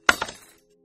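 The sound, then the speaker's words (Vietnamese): A flashlight thrown against a stone door makes a single sharp knock with a brief metallic clink. The sound decays quickly into silence, with nothing else around it. “Cái đèn pin chạm vào cửa đá, phát ra một tiếng leng keng.”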